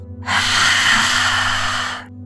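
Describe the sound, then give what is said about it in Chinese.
A forceful, breathy exhale in yoga lion's breath practice, tongue stretched out and throat compressed: one harsh, hissing breath of about two seconds that swells and then trails off. “第十三次深深的吸气，不断的去净化你的喉咙。”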